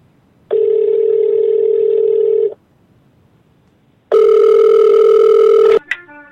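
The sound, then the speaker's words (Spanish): A phone call placed after a number is dialed: two steady telephone tones of about two seconds each with a short gap between, the second cut off by a click and brief chirp. “si tú marcas a ese número, esto es lo que sucede. Vamos a ver. Ah, ah, ah estoy marcando. Ahí va.”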